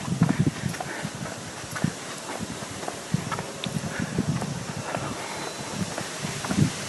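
Strong wind rumbles and hisses against the microphone outdoors, with steady rhythmic footsteps of someone walking beneath the constant noise.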